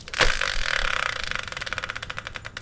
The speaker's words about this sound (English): So let's bring in the subject randomizer, give it a spin, and find out what today's tale will be.